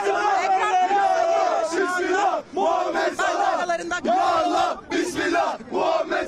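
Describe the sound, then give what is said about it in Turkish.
Crowd of young fans in Trabzon cheering and chanting for Mohamed Salah's arrival, loud voices rising and falling in rhythmic surges with brief gaps between shouts. “Trabzon'daki taraftarlar da keza bu noktaya gelerek ilk ışıklarından, yani bu bilgiler biraz kalabalık etrafım, kusura bakmayın lütfen, burada gençler de keza Salah'ın gelişini kutladılar burada etrafında.”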